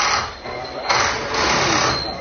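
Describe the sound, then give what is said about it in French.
A pneumatic wheel gun unscrews a Formula 1 wheel nut during a pit-stop wheel-change experience, giving a loud, rattling mechanical whir over steady background noise. “Alors c'est un gun, du coup rien de plus simple. Ouais. Le premier bouton c'est pour dévisser le boulon, ouais. Et le deuxième c'est pour le revisser.”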